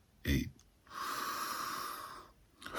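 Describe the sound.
A slow exhale during a breathing exercise, heard as a steady, airy rush of breath lasting about a second and a half after a brief low puff. It is quiet, and a faint breath begins again at the end.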